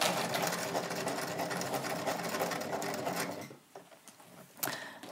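A sewing machine stitches a waistband onto trousers, running steadily and loudly for about three and a half seconds before stopping, with faint handling sounds afterward.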